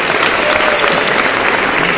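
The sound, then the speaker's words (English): Loud audience applause at a live event for a user-group radio show, dense and continuous for the full two seconds with no break in the clapping. “So give these guys another round of applause for Hash Lug Radio.”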